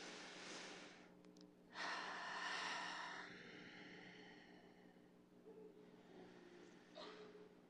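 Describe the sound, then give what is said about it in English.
Faint, slow, deep breathing during a guided breathing exercise before a prayer, with a soft airy rush of breath swelling briefly and then easing into a quiet hiss. “You take a deep breath with me a couple times.”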